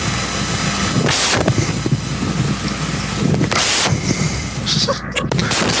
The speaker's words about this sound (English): Fireball. And Fireball gets sound effects.